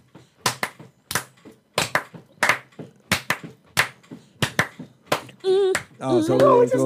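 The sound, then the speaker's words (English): Many sharp hand claps from people clapping along, struck in a steady, even rhythm, followed at the end by a voice. “because I'm not fucking talking with y'all clapping like that.”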